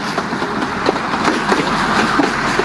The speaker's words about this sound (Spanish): Bueno, acá pasa el tren. El Belgrano Sur.